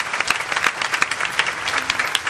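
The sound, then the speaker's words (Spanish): Dense applause from a church audience during a service, many hands clapping at once in a steady, bright, crackling wash that holds at even loudness with no talking. “Otro aplauso al Señor, porque no agarró cualquier barca, es la barca de Pedro.”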